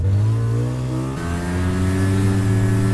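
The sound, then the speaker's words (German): A snowmobile engine revs as the machine sets off from a garage toward deep, rough snow: a loud, steady, buzzing drone with a brief shift in tone partway through, then holding strong. “haben gerade die Skidos aus der Garage geholt, so eine Art Motorrad, mit dem man sich seinen Weg auch durch dicht verschneites und unwegsames Gelände bahnen kann.”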